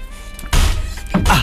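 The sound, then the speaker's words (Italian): A door slams with a heavy, sharp bang much like a gunshot, followed moments later by a second loud thump. “Ma ci hanno sparato, secondo me, perché c'è Morricone sotto. C'è Morricone sotto. No, infatti mi stavo un po' preoccupando. Invece era la porta, però sembravano spari.”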